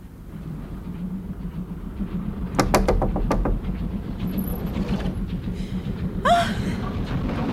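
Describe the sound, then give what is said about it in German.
A few quick knocks land on a door inside a railway carriage. The crisp raps sit over the steady low rumble of the moving train. “Ich ging zurück und klopfte an die Tür meiner Freundin.”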